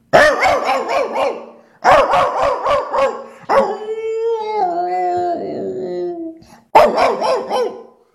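A young dog roaming the neighbourhood barks at another dog in loud, rapid bursts of yelping barks. A drawn-out, wavering howl-like whine follows, then another burst of barking.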